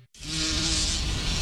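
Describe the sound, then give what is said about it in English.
A bee buzzing close by, a loud, steady, unbroken drone that starts abruptly after a brief moment of silence and holds level to the end. “why do bees sting? I guess they need a way to protect themselves. But they're busy making honey. Yeah, so we shouldn't bother them. If we leave them alone, they'll leave us alone. Then why is this one bothering us?”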